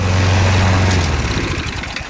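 A motorized push lawn mower runs on a large lawn in Ørje, Norway, its small engine giving a loud, steady low drone that roughens and changes tone partway through.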